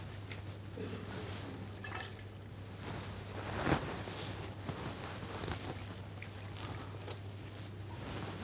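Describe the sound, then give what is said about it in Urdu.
Water trickles and splashes as it is poured over the hands during ablution, scooped with the right hand to wash the other. The flow is faint and steady over a low hum, with one louder splash near the middle. “اسی طریقے سے دوسرا ہاتھ، سیدھے ہاتھ سے پانی لیا،”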